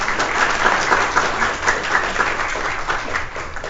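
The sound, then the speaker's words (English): An audience applauds a college graduate at a recognition ceremony. The dense clapping stays loud and continuous, with slight pulsing swells in its texture, throughout. “So give a round of applause for Tyler again.”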